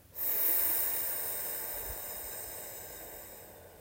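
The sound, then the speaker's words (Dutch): One long, steady, airy breath hisses during a breathing exercise. It starts suddenly and holds for several seconds, fading only slightly toward the end. “Adem je weer in, adem uit.”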